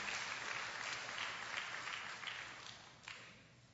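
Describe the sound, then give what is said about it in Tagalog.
A church audience applauds, a soft, steady wash of many hands clapping that gradually fades toward the end. “Sige po, palakpakan natin ang Panginoon.”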